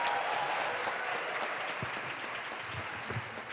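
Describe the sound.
A church audience claps to welcome a speaker to the front, with brief, steady applause that eases off slightly toward the end.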